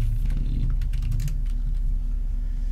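Fast typing on a computer keyboard as a search is entered: a quick burst of many crisp key clicks that thins out toward the end, over a steady low hum.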